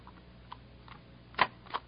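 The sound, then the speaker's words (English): Small metallic clicks of a screwdriver adjusting a rifle bolt: a few faint ticks, with the two sharpest falling close together near the end and no talk over them. “Okay, if I use that screwdriver? Take it. Bolt's out of place. All it needs is adjusting, I think.”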